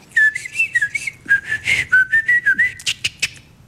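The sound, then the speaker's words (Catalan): A person whistles an imitation of a blackcap's song: soft, warbling high phrases of quick notes with brief gaps, ending in a few sharper, rougher bursts. “Què fa el tallarol de casquet? És una mica complicat, no? Fa com una maragassa. Sí. Suau, tranquil·la, fa... I l'embruta una mica al final.”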